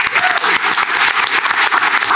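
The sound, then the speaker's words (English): Audience applause during a panel quiz game, a loud, dense and steady burst of many hands clapping that carries on for about two seconds with no voices over it. “Round of applause for Lucy.”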